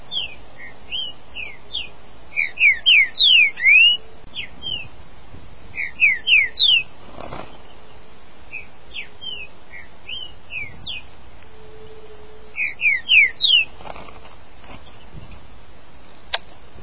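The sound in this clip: A caged saltator bird calls in quick bursts of sharp, clear chirping notes, coming in a few clustered phrases with scattered single notes and quiet gaps between.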